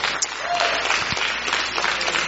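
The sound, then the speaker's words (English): An audience claps at a church worship service, a dense, steady wash of hand claps that continues evenly throughout without pause. “Just give the Lord a big hand clap, if you will.”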